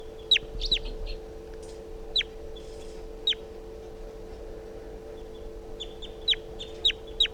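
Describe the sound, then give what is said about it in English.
Wild bird chittering on a swooping flight close over a net: sharp, high, downward-sweeping chirps come in short bursts, a cluster early, scattered single calls in the middle and a denser run at the end, over a steady low hum. “The wild bird just flew over the net and came close, chittering on a swooping flight.”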